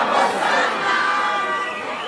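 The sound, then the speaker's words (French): A crowd surrounding a governor sings and dances, a loud, dense mass of voices with overlapping shouts and chanted tones that stay steady throughout. “On chante et on danse. La foule l'entoure.”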